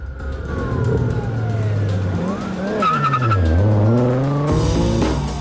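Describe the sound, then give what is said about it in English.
A car drives away down a road: a rumbling engine with gliding pitch sweeps and squealing tire tones, before the low rumble drops out near the end. “He walks over to Brian's car and gets in it. Brian stands in the road and watches as he drives away.”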